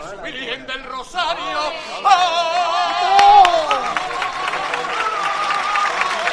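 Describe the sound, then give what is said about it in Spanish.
Applause and cheering from a street crowd at a procession as a sung saeta ends. The singer's held, wavering notes give way to swelling clapping and crowd chatter that continues to the end. “Entre aplauso, acaba esta saeta cuando Manuel Vizcaya ya da las indicaciones a los costaleros.”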